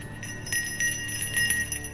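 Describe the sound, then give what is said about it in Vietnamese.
A small handheld ritual bell is shaken in quick, irregular strokes, giving a soft series of bright metallic chimes that ring on briefly between strikes. “Tiếng chuông vang lên như là trợ lực cho Huy”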